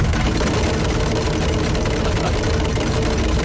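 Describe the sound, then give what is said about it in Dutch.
A bingo machine mixes its balls with a steady, loud, whirring rush that stays constant from start to finish, without pauses. “Alle ballen erin en dan trekken wij er eentje uit.”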